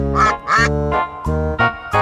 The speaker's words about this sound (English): he led the others with a quack, quack, quack. Quack, quack, quack. Quack, quack, quack.